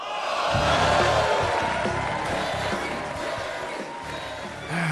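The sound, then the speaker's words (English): Studio audience of the Jerry Springer talk show cheering and shouting as a played-in effect: a dense, loud, steady roar of many voices that holds for the whole few seconds. “Cue that audience on Jerry Springer.”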